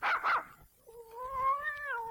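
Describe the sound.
A cat gives two short, rough bursts, then a long, drawn-out meow with a wavering, slightly sliding tone, moderately loud with no talk.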